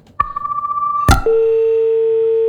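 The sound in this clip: A telephone line's disconnection tone after a call drops. A rapid pulsing beep gives way to a sharp click, then a loud, steady continuous tone holds to the end.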